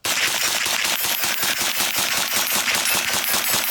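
A domestically made light automatic weapon chambered in 9x19 mm, developed for law enforcement, fires in a loud, continuous string of many rapid, evenly spaced shots with no pauses throughout.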